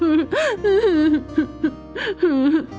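A child cries in fear after being cornered and pushed by bullies, loud, high, wavering whimpers and sobs with pitch rising and falling, broken into many short bursts.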